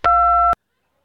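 Voicemail beep after a Mandarin greeting: one steady two-tone electronic beep, about half a second long, loud and alone, followed by silence.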